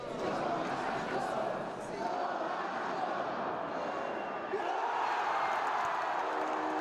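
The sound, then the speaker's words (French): Ice hockey fans at a Montreal arena roar in celebration of a goal at a professional league game, a dense, sustained crowd cheer that stays loud throughout with only a brief dip near the middle. “Ce que vous venez d'entendre, c'est les supporters des Canadiens de Montréal qui célèbrent un but de leur équipe de hockey en Ligue nationale.”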